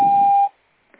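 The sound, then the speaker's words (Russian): A single steady electronic beep of a voicemail system marks the start of message recording. The tone is clear and mid-pitched, lasts about half a second, then cuts off into near silence. “Вызываемый абонент, к сожалению, все еще не отвечает. Вы можете оставить голосовое сообщение после сигнала.”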